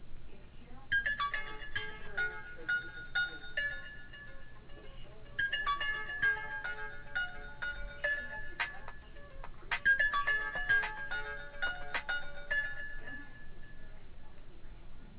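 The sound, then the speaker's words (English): A mobile phone ringtone plays through a narrow-band line during an echo cancellation test call, its bright melodic phrase repeating three times with short pauses between. “I'm now playing some ringtone from my cell phone.”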